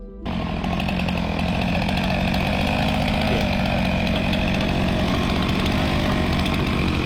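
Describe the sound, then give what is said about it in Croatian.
Saws and an excavator cut ice to make a swimming pool at an Antarctic research station, producing a loud, steady engine-like roar that holds unbroken from start to finish. “članovi ekspedicije u istraživačkoj stanici Casey koristili su pile i bager kako bi sebi napravili svojevrsni bazen za plivanje.”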